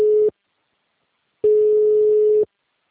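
A telephone busy signal sounds after a dropped call: a steady, mid-pitched electronic tone that pulses on and off. A brief tail of one tone is followed by a pause of about a second, then one full tone lasting about a second.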